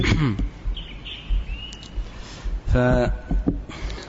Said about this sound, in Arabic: صوت العصافير